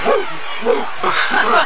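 Dog barking on an evening walk, a few short, loud yipping barks in quick succession over a constant background hiss.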